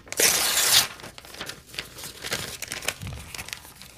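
A paper envelope torn open in one loud, quick rip lasting under a second, followed by softer crinkling and rustling of paper.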